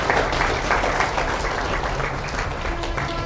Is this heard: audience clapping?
yes